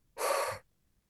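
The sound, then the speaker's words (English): A person imitates an exhale with one short, airy breath burst of about half a second, alone and without words. “And as I finished a story, he would like exhale. He would just be like,”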